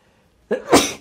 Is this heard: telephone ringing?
no